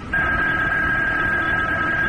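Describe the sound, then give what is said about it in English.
A telephone rings with a steady, high electronic tone that starts after a short pause and holds unbroken to the end, with no voices. “And then the phone rang. I let it ring.”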